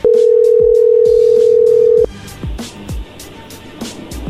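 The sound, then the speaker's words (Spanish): Telephone dial tone while a call is being placed: a steady, loud single tone for about two seconds that cuts off abruptly. Quieter scattered clicks and low mixed noise follow. “Ahí se está marcando de nuevo. Oiga, márquele, dígale que soy Luis Tapoya y va que sí me conoce.”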